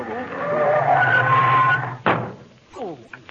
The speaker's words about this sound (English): Well, slam your brake.